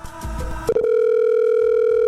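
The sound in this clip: A telephone line tone sounds as a radio host places a call to a listener, a steady unbroken tone that begins after a brief burst of other sound and holds evenly to the end.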